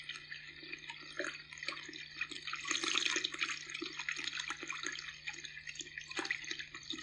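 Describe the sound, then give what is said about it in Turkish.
Water gushes out in a steady, faint rush of spray, with scattered splashy drips throughout. “Su fışkırıyor, görmüyor musun? Kes şu meleti be. Her tarafı su basacak, göl gibi olacak yoksa.”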